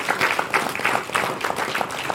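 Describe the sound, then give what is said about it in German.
Applause from an audience at a community event honouring the Freifunk Stuttgart volunteers: a dense, steady patter of many hands clapping at moderate level for about two seconds, with no voices over it. “Klatsch auf für Freifunk Stuttgart.”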